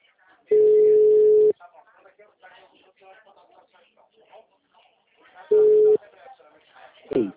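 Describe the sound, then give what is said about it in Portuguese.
A telephone busy tone follows a dropped call. A steady low beep runs for about a second, faint voices talk in between, then a shorter beep returns. “caiu a ligação”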